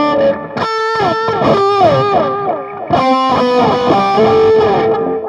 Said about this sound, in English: So my last couple of generic patches are, again, a metal but with some delay added.